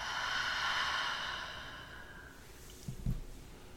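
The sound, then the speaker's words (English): A person breathing slowly, with one long, soft, airy exhale that gradually fades, followed by a quieter stretch with a faint, brief breath sound near the end. “Continuing to breathe in and out.”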